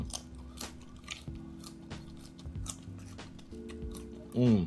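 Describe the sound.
Raw carrots are bitten and chewed, giving repeated crisp crunches at a fairly low level, with a brief voice near the end.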